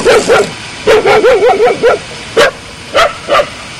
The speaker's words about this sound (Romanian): Căței s-au agitat, am avut probleme cu ei